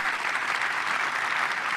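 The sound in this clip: Audience applause at Apple's 2019 developer conference keynote during an operating-system announcement, a dense, even roar of many hands clapping without a break.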